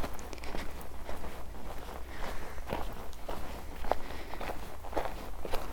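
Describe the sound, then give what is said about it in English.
Two startled muntjac deer run off in a quick, irregular series of many crunching, rustling footfalls. The sound stays fairly loud throughout, with no talk. “That was two muntjac deer that I just startled.”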